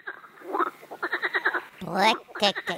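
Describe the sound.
Frog croaking from a loud species: a series of rapid, raspy pulsed croaks in several bursts, each a quick train of buzzy clicks, fairly loud with short gaps between calls.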